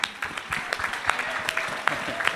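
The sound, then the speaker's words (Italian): Audience applause at a live music event greets the band's drummer: a steady patter of many claps with sharper individual claps standing out now and then, holding at an even level throughout. “la nostra mitica batterista, un applauso, grazie, si chiama Chiara.”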